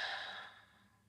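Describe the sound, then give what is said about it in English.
A slow, soft breath out, taken during a calm breathing exercise: a quiet, airy hiss that is strongest at the start and fades away gradually over about a second. “A nice full in breath and a slow out breath.”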